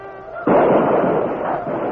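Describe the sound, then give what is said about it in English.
Gunfire sound effect from a radio drama battle between uniformed troopers and attackers. It opens with an abrupt loud blast, then continues as a dense, sustained crackling barrage that barely fades over two seconds. “Devastating gunfire broke out.”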